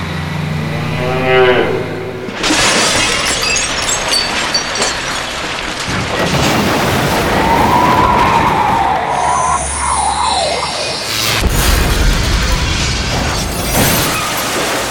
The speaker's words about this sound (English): now Christo's driving his tank right past the McDonald's fast food restaurant. Get out of me bloody way, mate.